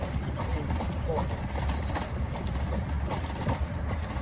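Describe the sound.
Horse hooves clip-clop steadily as the animal pulls a carriage on a city sightseeing ride, a continuous even rhythm of hoof strikes with people talking over it.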